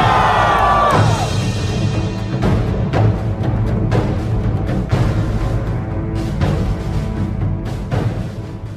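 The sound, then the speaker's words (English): Crowd noise at a demonstration in Cannock: a loud, dense roar of many voices that swells and surges in a loose repeating rhythm, sustained through the whole stretch. “I hope you enjoyed that high-energy intro from our biggest demonstration to date, the demonstration down in Cannock.”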